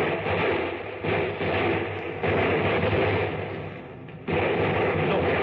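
Battle sound effect of artillery and gunfire: a dense, continuous roar of low rumble and crackling noise, with a few sudden jumps in loudness and no clearly separate shots.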